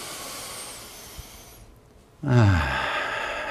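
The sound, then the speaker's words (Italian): Deep breathing during a workout breathing exercise: a soft, airy breath, then after a short pause a louder, breathy, partly voiced sound that carries on to the end. “faremo 4 grandi respirazioni, inspiro,”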